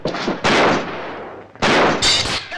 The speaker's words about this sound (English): a policeman shoots